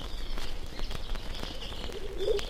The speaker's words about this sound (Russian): Свою звонко ликующую песню дрозд белобровик.